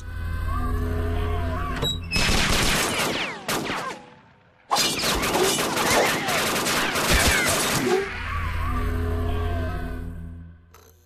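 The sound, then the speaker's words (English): Gunfire in a shootout: dense, rapid volleys of shots in two long sustained stretches separated by a brief pause, with a low hum before and after. “Just shooting at them. And they shoot some back. Some guys just need to get shot, I guess.”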